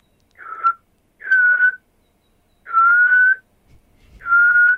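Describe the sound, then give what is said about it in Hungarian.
A person whistles in imitation of a melancholic night call: four loud, steady, high notes, each lasting under a second, repeating at regular intervals with silence between them. “Ráadásul ezt tudom is utánozni, egy ilyen melankolikus, körülbelül olyan másfél másodpercenként ismétlődő fütyről van szó.”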